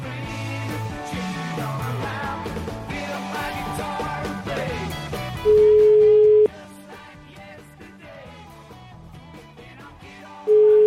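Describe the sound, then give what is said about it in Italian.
Ringing tone of an outgoing telephone call: a steady, loud single-pitched tone held for about a second, repeated after a few seconds of quieter sound, following a stretch of music. “chiamiamolo, dai ragazzi, chiamiamolo, dai. Fatemi il numero del TAO, eh.”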